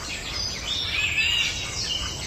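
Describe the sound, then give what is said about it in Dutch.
Golden oriole calls near Zeegse: faint, fluty whistled notes drift above a steady background hiss, with no other clear sounds. “Geweldig. Ze schreef: de wielerwaal laat weer volop van zich horen. Ik zag ze samen met drie jongen de buurt verkennen.”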